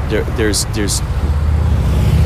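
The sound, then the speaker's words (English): Hearse and a procession of cars driving past: a low, steady engine rumble that grows fuller in the second half, with a voice speaking briefly at the start. “There's a hearse driving past. It says Dignity, and all these cars.”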